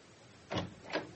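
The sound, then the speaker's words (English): A door being opened, heard as two soft, brief scraping bursts about half a second apart, fairly faint, with no voices. “And shut that flipping door.”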